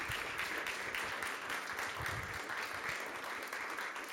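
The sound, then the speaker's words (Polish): An audience applauds the winners at an award ceremony for a historical book of the year competition. The clapping is a soft, steady, dense patter that stays even throughout, with no voices standing out. “Jeszcze raz wielkie brawa dla wszystkich laureatów i dla wszystkich wyróżnionych.”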